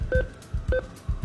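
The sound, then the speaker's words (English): ATM keypad buttons being pressed during a cash withdrawal: two short electronic beeps, each with a soft press, among several dull low taps, in an uneven, unhurried rhythm. “So we're at an ATM, we're getting the hitting of buttons and numbers. This is getting out cash.”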